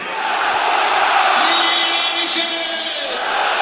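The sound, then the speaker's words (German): Football stadium crowd cheering during a match, a dense, sustained roar with a faint chant-like tone running through it, loud and steady throughout. “Ja, ihr hört es im Hintergrund, Lasogga wird hier gefeiert.”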